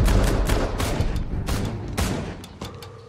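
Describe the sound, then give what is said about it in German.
Gunfire during a shootout around a car: a rapid, irregular volley of many loud, sharp cracks with a booming low end, easing slightly in level toward the end. “Schieß über den Wagen, doch nicht mittendurch!”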